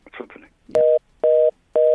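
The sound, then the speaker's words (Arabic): Telephone tones after a caller's line fails to connect: a brief murmur of voice, then three evenly spaced, steady mid-pitched beeps, each short and of equal loudness, with quiet gaps between them. “فصل. اتوقع ما دخل اتصال.”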